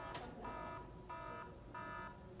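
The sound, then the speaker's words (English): Alarm buzzer going off in harsh, evenly spaced electronic bursts, three full buzzes with a fourth starting at the end, loud and alone with no voices. “Actually, that's not only false, it's so false it set off my alarm.”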